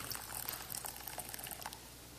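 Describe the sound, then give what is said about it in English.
Tea poured into a cup makes a soft, steady liquid trickle with light splashing, faint and continuous for about two seconds with no voices. “I like to pour the tea mindfully.”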